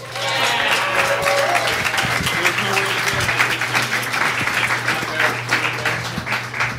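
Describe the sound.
Applause from the audience at a jazz band concert fills the whole stretch: many hands clap in a steady, loud, dense wash that holds roughly even from start to end.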